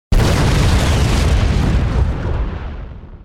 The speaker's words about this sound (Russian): Земля вздрогнула от взрыва. Как при извержении вулкана, пылающие столбы появились высоко в небе. Практически все бронированные машины взорвались одна за другой.